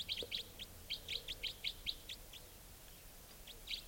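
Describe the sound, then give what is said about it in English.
A wild bird gives a rapid type 4 call series: many short, high, evenly spaced chirps in quick succession, then a brief pause before one more burst. “Wild bird. Doing a rapid type 4 series. Also, type 4”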